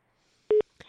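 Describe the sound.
A telephone is dialed to call a friend: a single short, steady mid-pitched beep, loud and standing alone in near silence.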